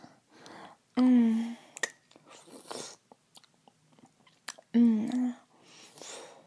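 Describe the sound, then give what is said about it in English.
Someone chews and tastes ice with wet crunching and mouth noises, broken by two drawn-out, low, humming vocal sounds. Soft breathy whispering fills the gaps. “I gotta taste this ice.”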